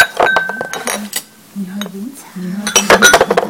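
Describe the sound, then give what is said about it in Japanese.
Ceramic tea bowls clink against each other during a tea ceremony, giving several light, bright knocks while people talk. “器と器がですねぶつかる音もして”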